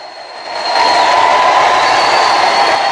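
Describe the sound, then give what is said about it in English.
A crowd going wild around a fighting arena, a continuous roaring wash of noise that swells up loudly within the first second and then holds steady. “Snake is slumped, gasping in his corner, the crowd going wild behind him.”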